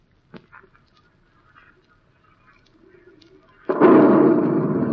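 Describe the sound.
An explosive charge detonates, fired on command in a sequence of charges: a few faint small sounds come first, then a sudden loud, broad blast erupts and keeps roaring without letting up until the end.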